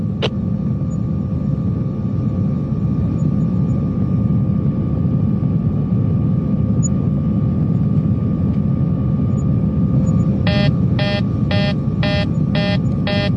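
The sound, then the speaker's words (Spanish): An airplane losing control and falling: a loud, steady engine roar fills the whole clip, and a rapid run of repeating electronic alarm beeps joins it near the end. “He perdido el control del avión y caemos muy rápidamente.”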